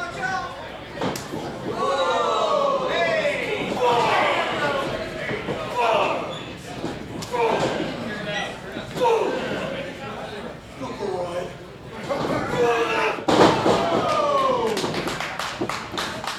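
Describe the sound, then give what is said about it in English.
A wrestler slamming an opponent onto the ring during a professional wrestling match: a few sharp, heavy thuds break through continuous excited commentary and crowd chatter. “Mad Dog on Xander like a dog with a bone. Huge slam by Mad Dog.”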